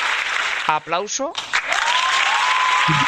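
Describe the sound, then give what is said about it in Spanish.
Applause rolls on as a continuous, fairly loud wash of clapping, with voices talking over it in the opening seconds and briefly again at the end. “vamos a darte un aplauso”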